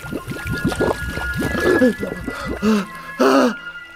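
Water is poured and splashed over a person as a radio play effect, with gurgling, trickling pours that end in a few louder, broad splashing bursts before falling quiet.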